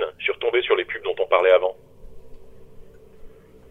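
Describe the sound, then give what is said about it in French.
A voice run through a telephone-style filter sounds thin and tinny, with the low and high ends cut away. The filtered speech fills the first half, then fades into a faint low hum. “Je vais vous mettre un filtre comme si vous étiez, euh, euh, comme si vous étiez par téléphone.”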